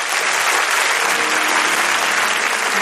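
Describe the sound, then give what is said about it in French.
A church audience claps loudly in praise of the Lord, producing a dense, sustained wash of applause with no break. “Si tu crois en Jésus, acclame le Seigneur.”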